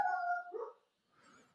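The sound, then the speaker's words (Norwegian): A dog lets out one drawn-out, tonal bark, followed after a short pause by a quieter, rougher burst. No one talks. “Der hunden som oppdaget noen i nærheten her”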